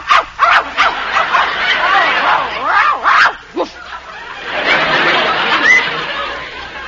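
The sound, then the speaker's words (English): A dog gives a quick, irregular run of short, high yips and barks through the first half. A longer, noisier stretch follows. “Did you hear what I heard? I'm not sure. What did you hear? It's a dog. She's got a dog in there.”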